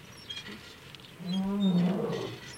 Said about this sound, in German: Na ja, die Löwen, die sind auch müde.